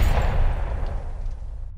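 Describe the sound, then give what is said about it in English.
A loud pistol shot during a tense police standoff: one booming blast with a heavy rumbling tail that fades out in under two seconds, with no voices. “looking down the barrel of Smith's pistol pointed right at my head, my instincts took over. I drew my gun. And I fired.”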